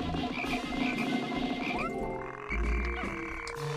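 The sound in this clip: A video game frog croaks over layered electronic game tones and music, with a low thump partway through.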